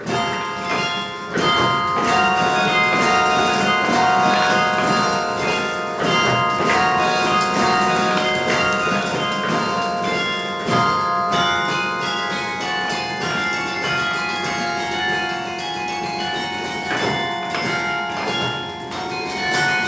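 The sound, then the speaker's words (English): Carillon bells ring loudly from inside the playing cabin, many sustained metallic notes overlapping in a dense, continuous peal, with mechanical clatter from the playing action under the ringing tones. “I was recording in the playing cabin, so you hear all the mechanics. The Carillon's made to be listened to outside.”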